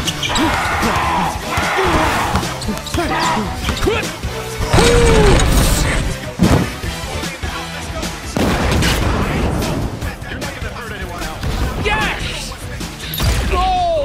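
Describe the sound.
Basketball bouncing in the video game Dead Space: repeated thuds amid loud, dense game sound effects with crashes and booming impacts throughout.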